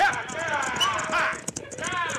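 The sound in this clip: Hooves of horses pulling a stagecoach clip-clop in a quick, steady rhythm beneath loud voices.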